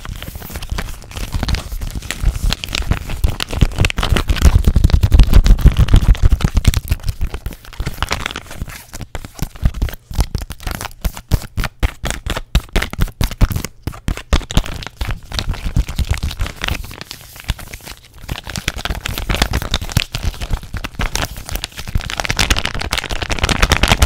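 Plastic crinkles, crunches and taps as a plastic face mask container is handled fast and aggressively with lots of mic contact, producing a loud, dense, continuous stream of crackling textures.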